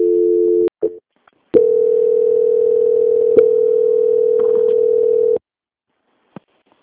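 A steady, mid-pitched telephone line tone plays while a call is being transferred. A short tone and a break with clicks come first, then a long, unbroken tone of several seconds that cuts off abruptly, followed by a faint click.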